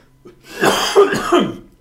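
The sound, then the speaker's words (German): Loud coughing after swallowing the wrong way, a few harsh, rough bursts close together that rise and then trail off. “Völlig unpraktisch, dass ich mich ausgerechnet jetzt auch noch verschluckt.”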